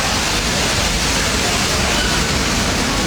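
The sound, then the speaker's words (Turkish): Floodwater pouring heavily down the escalators of a flooded shopping mall during a downpour, a loud, dense, unbroken rushing hiss throughout. “AVM'nin otoparkını su basarken yürüyen merdivenlerden de yoğun şekilde su aktı.”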